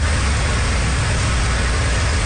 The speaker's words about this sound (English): Motorists drive over a flooded road on southern Cape Breton.